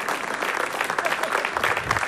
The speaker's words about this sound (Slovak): Zaslúžený potlesk ešte raz pre víťazov ceny verejnosti.